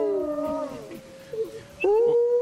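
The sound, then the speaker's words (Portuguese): Wolf howling: wavering tonal cries, a long one gliding downward at the start, a few shorter yelping notes, then a renewed sustained howl near the end. “Olha o uivo aí do uivo”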